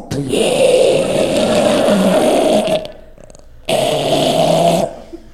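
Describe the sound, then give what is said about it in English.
A man's voice imitates a sleeping man's snoring breath: two long, rough, buzzing snores with a short quiet gap between them, loud and steady. “And people knew he was asleep because his breathing changed. So normally he breathed like this. And then when he would fall asleep, it turned into this.”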